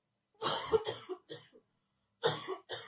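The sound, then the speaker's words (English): Coughing in short, harsh bursts: a quick cluster of several coughs, a pause, then two more. The coughs are moderately loud against silence. “hopefully we just have 3 minutes so I don't find myself coughing again while I'm on air”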